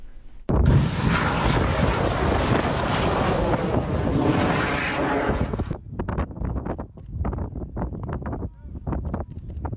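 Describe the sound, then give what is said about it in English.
A home-built rocket takes off in the desert with a loud, harsh roar that surges suddenly and holds for about five seconds, then cuts away to scattered voices and bursts of noise. “A man skeptical that the world is round died after launching himself into the sky with a home-built rocket. The moment of takeoff was caught on camera.”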